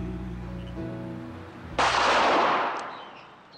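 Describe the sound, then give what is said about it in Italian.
A single loud, sharp gunshot from an unsettling film soundtrack cuts in after low, sustained droning tones. Its bright crack hangs in a long, slowly fading tail. “con questo sparo inquietante era appunto il secondo estratto dalla colonna sonora del film L'ultima casa sulla sinistra.”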